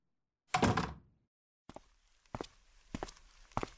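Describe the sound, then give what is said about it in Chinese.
A door is pushed shut with a single faint, dull thud, followed after a short gap by a few soft, evenly spaced footsteps. “进来吧，记得把门关上。”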